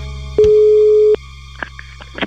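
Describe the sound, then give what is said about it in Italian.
Telephone line tone heard while a number is redialed after a dropped call: one steady, mid-pitched tone lasting under a second, followed by a few faint, short clicks. “Ah, cavolo, deve essere caduta la linea. Lo richiamo subito.”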